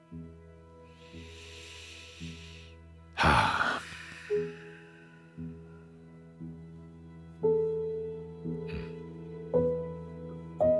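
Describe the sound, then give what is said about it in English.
A deep breath taken as part of a guided meditation, drawn in and released in one loud, breathy rush of air, heard over a soft sustained musical drone with quieter airy hiss before it. “Let's take a deep breath. Coming out of the dream.”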